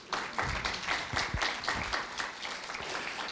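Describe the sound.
An audience applauds to welcome a volunteer onto the stage, a dense patter of many hands clapping that stays fairly even and moderately loud throughout.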